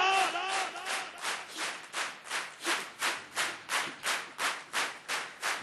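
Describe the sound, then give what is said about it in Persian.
Rhythmic audience clapping: many hands strike together in a steady, even beat of many claps, with crowd voices mixed in at the start. “کف میزنن همه بزنن تا اون آخر دست بیاد بالا.”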